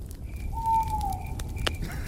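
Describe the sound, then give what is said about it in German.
A single drawn-out tonal owl hoot rises at night over the steady crackle and pops of a campfire. The call is clear, not loud, and holds one even pitch. “Kaum denke ich, es ist ruhig, schon hört man eine Eule.”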